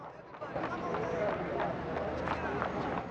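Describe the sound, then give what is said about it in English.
A woman's running footsteps patter as she flees after tripping over a market stall. Quick, steady footfalls carry on for about three seconds over a busy background of crowd murmur and voices. “Roberta trips over the stall. She runs off.”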